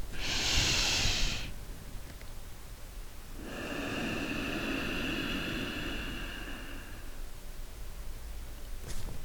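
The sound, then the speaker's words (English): Nasal breathing during a meditation exercise: a short, bright hiss of air drawn in through the nose, then after a pause a longer, softer, steady exhale, with no talk. “you breathe in through your nose, your abdomen, your diaphragm gets bigger, and then you exhale through your nose.”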